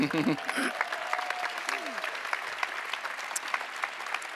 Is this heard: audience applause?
yes